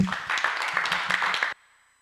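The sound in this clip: A church audience claps for a guest speaker, a dense run of applause that holds steady for about a second and a half, then cuts off abruptly.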